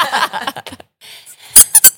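A pocket toy squeaks three times in quick succession, each sharp and high-pitched, loud against the softer, sparse sounds before them.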